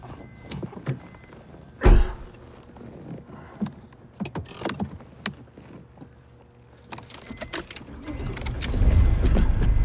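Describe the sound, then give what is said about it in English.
Garage door rising open in a garage lined with tool chests and cabinets beside a parked car: a motorized whir with scattered clunks and clicks that grows louder and steadier toward the end. “He presses a button beside the garage door, then moves past rows of tool chests and cabinets to a parked car as the door rises open.”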